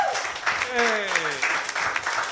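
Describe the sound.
An audience applauds a guest on a live talk show, a steady wash of clapping that holds at an even level while a voice speaks over it.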